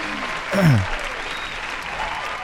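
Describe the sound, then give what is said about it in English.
A studio audience applauds performers from a Center for the Arts production of Shrek the Musical, with moderate, steady clapping that swells briefly early on and then continues evenly. “There's our studio audience there for you.”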